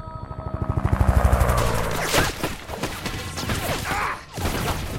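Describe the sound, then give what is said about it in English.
Hail of gunfire in a street battle in Kandahar as US soldiers take cover by a building. A fast, rhythmic burst of shots opens, then gives way to a loud, dense rattle of crashing impacts that keeps going. “A US soldier peeps around the side of a building and is met with a hail of bullets.”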